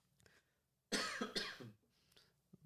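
A person coughs in a short, harsh burst of a couple of quick hacks, loud against near silence, with faint throat noises before and after.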